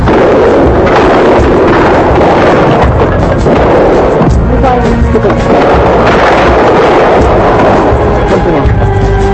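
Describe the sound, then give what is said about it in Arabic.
Gunfire at a crowded street protest, with dense, heavy bangs and booms merged into a loud, distorted, continuous roar that barely lets up. “وعندما اكتظ الشارع بالجماهير المحتشدة بدأ إطلاق الرصاص.”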